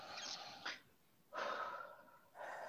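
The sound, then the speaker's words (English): Deep, faint breaths drawn during a breathing exercise. Three airy rushes of breath come in sequence, with short pauses between them. “All right, here we go. Inhale in.”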